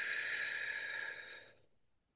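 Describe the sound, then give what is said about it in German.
A slow, controlled breath out during a breathing exercise: a soft, airy hiss that holds steady, then fades away over about two seconds, with no talk. “Und ich mache jetzt mal einfach vor einatmen. Pause Anhalten. und ausatmen.”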